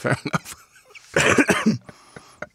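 Loud, harsh coughing: a few short coughs in quick succession, then a longer, rougher coughing burst, with no talk over it.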